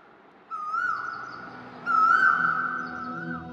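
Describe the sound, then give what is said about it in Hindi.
An Asian koel calls over evening commuter traffic, giving two drawn-out, clear tonal calls. The second call is louder and longer than the first, and both stand above a low, steady background hum. “Evening traffic जो office से घर लौट रहा है उसकी shrill PP पॉपो के शोर से उठकर ज्यादा जोर से ना एक कोयल की आवाज आ रही है मुझे”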